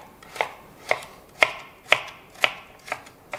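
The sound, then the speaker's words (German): Knife chopping carrot, celery and leek on a board: seven evenly spaced, crisp strikes in a steady rhythm, with no other sound. “Währenddessen schneiden wir jetzt das Gemüse, Karotte, Sellerie, Lauch.”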